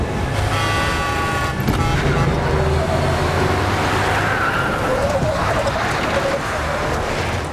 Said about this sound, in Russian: Машину Мака заносит и разворачивает поперек дороги.